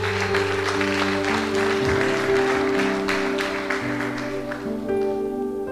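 A church audience applauds and acclaims during a service: dense clapping over sustained musical chords, steady and loud, thinning somewhat toward the end.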